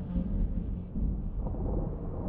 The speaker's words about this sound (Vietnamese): Tiếng sấm bắt đầu vang lên tới tấp, từng tia sét theo nhau mà nhá lên từng tia ngang dọc